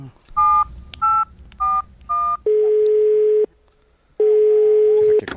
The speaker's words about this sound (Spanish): peguemos la llamada a ver si nos contesta